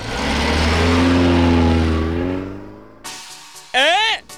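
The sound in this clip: A taxi car's engine revs loudly as the car drives off. The steady roar holds for about two seconds, then fades and is followed by a few short, sharp, higher-pitched sounds.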